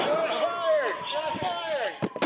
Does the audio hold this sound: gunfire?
yes